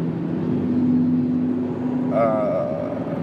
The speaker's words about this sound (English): I'm driving. We have about 40 minutes of time.